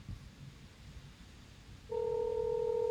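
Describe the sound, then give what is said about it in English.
American-style telephone ringing tone: a steady, loud two-tone ring starts about two-thirds of the way in and holds to the end, after a stretch of faint low background rumble. “Oh, there we go. Blimey, that sounds like an American ringtone.”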